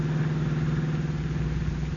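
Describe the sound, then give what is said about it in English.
A car's engine hums as it rolls down a steep hill on a narrow country road at night, a steady, even drone with no breaks and no voices. “the car swings into an old, little-used highway and speeds into the country. Turning into a narrow road, it is now rolling down a steep hill”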